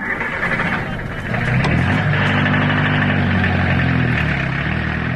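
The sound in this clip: A taxi's car engine idles with a steady low rumble and hum that grows a little louder and fuller after the first second or so, then holds constant.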